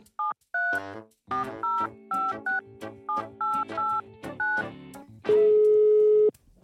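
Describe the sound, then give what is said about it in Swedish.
A telephone being dialled: a quick, irregular series of many short touch-tone beeps, each a clear two-note electronic tone, followed by one longer steady tone. “Ja, ska man ringa den där lallaren i Norrköping då?”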